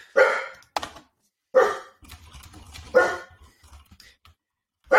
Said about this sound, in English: Oh, that is my dog, Milo.